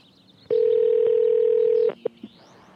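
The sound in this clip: A cell phone call ringing out: one steady, mid-pitched electronic ring tone sounds for over a second against quiet line hiss, followed by a few brief clicks.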